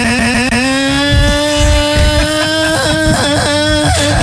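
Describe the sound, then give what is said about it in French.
A scooter engine drones loudly as it rides off, its buzzing pitch climbing gradually and steadily, with no voices. “Bah, je reprends le scooter et je rentre à la maison.”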